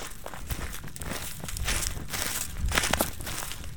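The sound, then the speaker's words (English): Footsteps of people walking the stream trail through a deeply shaded canyon: many crunching, crinkling steps in an uneven rhythm over steady outdoor noise. “We're coming to the intersection of some trails here. We've been walking on the stream trail, and now we're coming to the mill trail.”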